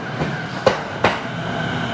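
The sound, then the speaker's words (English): A train passes going the other way with a steady, broad rumble and rush, broken by two sharp metallic clacks of the wheels. “Here comes the train going the other way.”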